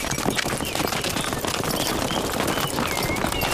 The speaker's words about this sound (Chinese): 把马牵过去，把路让开，快点， 跟上，驾驾。